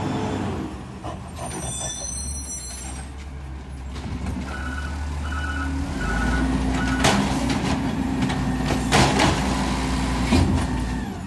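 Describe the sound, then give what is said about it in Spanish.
Heavy truck rumbling past with a deep, continuous engine drone. A few short, evenly spaced reversing beeps sound midway, with sharp hissing bursts as the noise grows louder toward the end. “Ahora van a escuchar el otro camión. Nada, es espectacular. No uno, dos, nunca pasan los dos juntos. Ahí va.”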